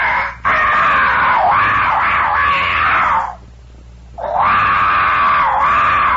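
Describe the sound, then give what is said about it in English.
A human voice imitates a jaguar's call echoing through the Amazonian jungle: two long, loud, wavering screaming roars, separated by a brief pause. “the sound of a jaguar, you see, echoing throughout the Amazonian jungle.”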